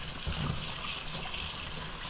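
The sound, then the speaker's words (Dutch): Running water from a sink tap while a cucumber is rinsed under it, a steady, even rush of water with no other sounds above it. “Ik ga komkommer in de wasbak even wassen.”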